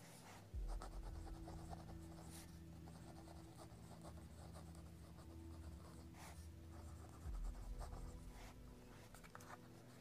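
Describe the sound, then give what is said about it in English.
Pen scratching on paper as a wish list is written down during a new moon ritual: a steady, faint run of small scratchy strokes over a low background hum, with no talk. “So I'm going to be writing mine.”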